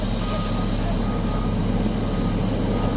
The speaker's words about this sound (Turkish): Yaklaşık 5 aydır araç trafiğine kapalı olan yolda çalışan iş makineleri metrelerce yükseklikteki kar kütlelerini temizlemek için yoğun çaba sarf ediyor.